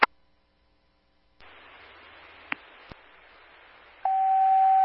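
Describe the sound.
Emergency radio dispatch alert tone: a quiet opening stretches into radio hiss marked by a couple of sharp clicks, then a steady, loud tone begins near the end and holds to the close.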